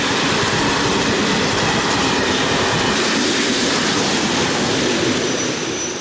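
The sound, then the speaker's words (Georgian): Train wheels rolling on rails make a loud, steady, dense rumble with a rapid clattering texture that holds evenly throughout and fades only slightly at the very end, with no voices. “მატარებლის თვლებმა გაისრიალა რელსზე, რომელსაც კაცია იწვა და განაგრძო გზა.”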